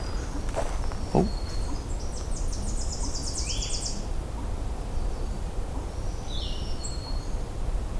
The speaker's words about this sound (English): There's a Tennessee warbler.